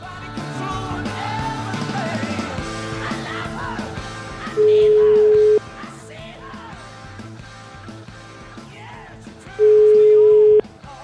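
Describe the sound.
Telephone ringback tone while a call is placed: two long, steady mid-pitched beeps about five seconds apart, sounding over busy background voices and music.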